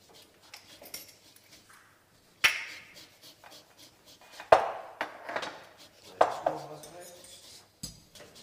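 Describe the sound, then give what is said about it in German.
Rasping scrapes of the yellow peel of half a lemon being grated on a fine Microplane rasp grater, an American model, in a kitchen: a few sharp, bright strokes with short scratchy tails and light clatter between them. “Du musst hier die halbe Zitrone nur das Gelbe halt reinreiben.”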